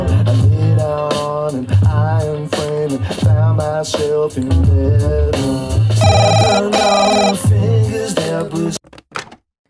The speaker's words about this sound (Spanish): Pues no me han dejado ni terminar la canción, ya habéis visto que me han interrumpido una llamada.